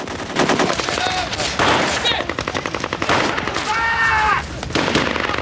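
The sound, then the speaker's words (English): Loud automatic gunfire as Marines and fighters exchange shots around narrow alleyways, with rapid, dense cracking bursts separated by brief pauses. “They turn to let off a few rounds.”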